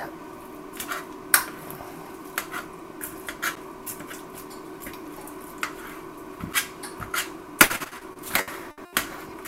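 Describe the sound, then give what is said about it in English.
A spoon mashes onions in a pan while someone cooks at home, making many irregular scraping clinks and knocks. A few sharper, louder taps stand out against a faint background, and no one talks. “So right now I'm just using the spoon to kind of mash the onions in.”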